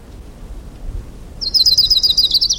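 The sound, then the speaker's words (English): Warbler song from Orange County: a rapid series of bright, high-pitched chirping notes begins partway through and repeats quickly and loudly over a low background rumble. “Orange County Warbler number 7.”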